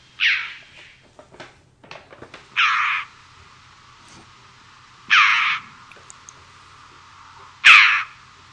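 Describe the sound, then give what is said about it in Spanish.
Jackdaw calls: four short, harsh, raspy notes, each loud and clear, spaced a couple of seconds apart against a quiet background. “Aquí lo que hay es grajilla.”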